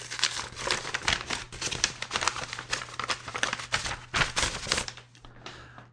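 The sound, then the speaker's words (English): A paper mailing envelope holding magazine back issues is ripped open, a crisp run of tearing and crinkling bursts with uneven rhythm that fades off near the end, with no talk. “my first mailing will include the 3 back issues from this year, which I think is what's in this envelope. I thought I'd wait to open it up on mic, so let's rip this baby open and see what we got.”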